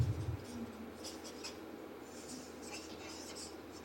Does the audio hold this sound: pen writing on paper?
yes